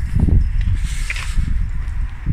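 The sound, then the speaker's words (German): Footsteps walk outdoors beside a parked car just after someone steps out, making a few dull, low thuds with soft scuffing in an uneven rhythm. “So, ich habe mal meine Jacke angezogen, bin mal ausgestiegen. Hier mal ein paar Schritte gehen.”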